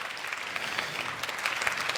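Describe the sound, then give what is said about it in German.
Applause from an audience in a hall at the end of a talk: dense, steady clapping of many hands that fills the whole stretch at an even loudness, with no voices heard. “Das war's. Applaus, Applaus, Applaus, Applaus, Applaus.”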